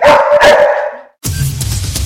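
Customs service dogs bark in a quick, loud burst of several overlapping yelping barks, then the barking breaks off into a brief silence before a different sound takes over.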